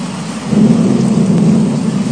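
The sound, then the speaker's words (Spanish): Heavy rain driven by strong wind during a storm, a loud, unbroken rushing roar with a low rumbling undertone that holds steady throughout, with no voices. “está buena la lluvia. Está buena la lluvia, paisano. Está precio la lluvia. Mucho viento,”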